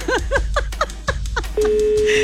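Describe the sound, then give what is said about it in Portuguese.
A ringback tone from an outgoing telephone call: one steady, even low ring begins partway through and holds to the end, after a short stretch of chirpy, warbling sounds. “Primeiro toque.”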